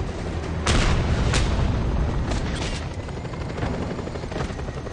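Grenade explosions in a helicopter combat video game: a few sharp, booming blasts burst over a steady, loud roar of rotor and battle noise that continues without a break.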